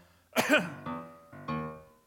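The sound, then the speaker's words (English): A person coughing: a sharp, harsh burst followed by a few softer, throaty hacks with a voiced edge, clear and alone without talking. “What's taking you so long? Nothing. I just had a cough.”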